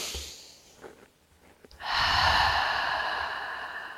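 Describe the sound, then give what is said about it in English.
A deep, slow breath drawn alone: a long, steady, airy hiss rises after a couple of faint, brief breathy sounds and holds for about two seconds before easing off slightly. “Taking a deep and slow breath.”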